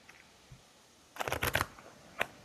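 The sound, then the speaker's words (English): A quick flurry of riffling and rustling as a deck of color cards used in meditation is shuffled, followed by a single crisp snap as one card is pulled out; the sounds stand alone and are fairly soft. “so let's pull a color card.”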